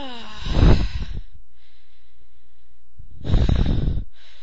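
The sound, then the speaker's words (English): Heavy breathing in an intimate scene: two long, rough breaths with a snorting, airy texture, the first stronger and the second after a quiet pause of about two seconds. “I breathe.”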